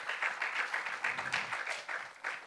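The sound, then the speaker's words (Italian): Audience applause at a talk event: fairly faint clapping in uneven bursts that swell and dip, with a few distinct surges rather than a smooth wall of sound. “giustamente un grande applauso.”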